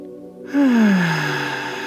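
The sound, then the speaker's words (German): A deep breath drawn in through the nose: one long, steady inhalation that begins about a quarter of the way in and holds to the end, clear and alone without talk. “Durch die Nase ein und durch den Mund wieder auszuatmen. Atme ein.”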